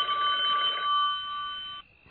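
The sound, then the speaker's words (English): A telephone rings with one sustained, shrill electric ring that cuts off abruptly, heard alone with no voices. “I never knew it was so hard not to answer a phone.”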